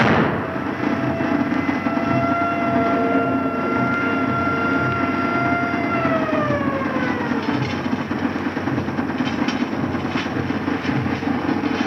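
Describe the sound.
A siren on board a ship during a rescue, a loud steady multi-toned wail that holds its pitch, then slides downward past the midpoint, over a continuous rumbling background.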